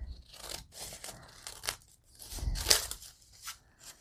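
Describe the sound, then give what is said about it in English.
Scissors cut scraps into small squares, making many crisp, irregular snips mixed with light rustling and tearing. The sounds are fairly faint and come in uneven bursts, with no talk. “Okay. Cut some of these smaller ones. We need some squares. Whole bunch of squares.”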